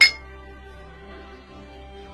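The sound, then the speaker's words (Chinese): Glasses clink once in a toast to a business deal. The bright, sharp touch comes right at the start, then a faint lingering ring and a low, steady hum continue. “祝我们合作愉快，干杯！ 干杯！”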